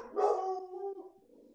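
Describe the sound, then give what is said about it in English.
A dog gives one drawn-out, howling bark that sags slightly in pitch and then trails off into a fainter whine, fairly quiet and with no voices. “That's my dog watching Air Buddies.”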